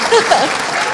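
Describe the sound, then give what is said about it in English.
Dense applause from a crowd at a meeting, congratulating a blind people's club on its membership growth, a loud, steady patter of many hands. “And this one is a very big growth, so give them a big hand.”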